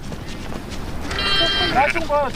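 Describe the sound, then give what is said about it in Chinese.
Lambs bleating, stray lambs separated from a herd after a disturbance, giving a few wavering, high-pitched bleats over steady background noise. “凭借多年放牧经验，冷本成功找回了因骚乱而掉队的羊羔。”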